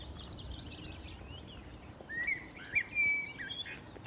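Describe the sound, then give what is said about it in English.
A Cetti's warbler sings a short, explosive burst of loud whistled notes over a steady low background hiss. Fainter chirps come just before it. “Oh, there's that Cetti's warbler right behind us.”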